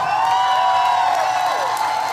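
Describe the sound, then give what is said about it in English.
A studio audience cheers wildly to welcome a guest for an interview. Whoops and raised voices blend into one loud, unbroken roar. “Yes, Bert, that is our studio audience going wild.”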